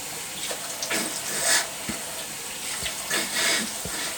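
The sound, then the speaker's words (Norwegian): Running water from a tap as a man washes his hands and forearms up to the elbows in ritual ablution before morning prayer; a steady hiss with a few soft splashes and no talk. “Han begynner med henda. Tre ganger opp til albuene mellom fingra.”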